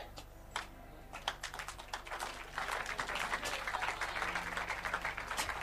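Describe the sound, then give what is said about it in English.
An audience claps during a religious talk, starting with a few scattered claps, then building into denser, steady applause, faint throughout. “I think you can clap better, please.”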